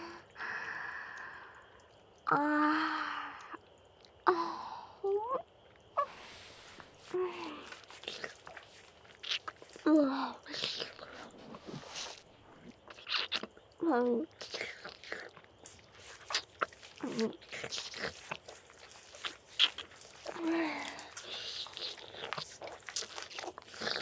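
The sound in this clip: Wet licking and mouth sounds: many soft smacks, slurps and clicks spread irregularly over the whole stretch, mixed with breathy whispering and faint voice, fairly quiet throughout.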